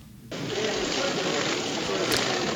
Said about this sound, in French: Tiphaine, tu entends ce bruit ? Oui. Cette nuée de colibris que l'on entend au loin, ce sont des photographes qui immortalisent une scène qui a eu lieu ce samedi de l'autre côté de la planète, en Australie plus exactement.